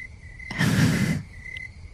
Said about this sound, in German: Ja, Grillenzirpen.